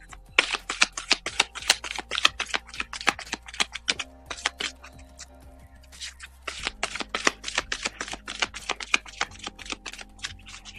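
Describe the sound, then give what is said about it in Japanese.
Playing cards being shuffled for a spiritual card reading: two long runs of rapid, crisp flicking clicks separated by a quieter pause. “カードをシャッフルします。”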